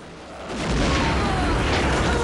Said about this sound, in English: A grenade is launched at the coach.